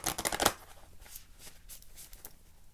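Tarot cards are shuffled and drawn from the deck. A brisk, rapid riffle of card flutter fills the first half second, then quieter scattered flicks and slides follow.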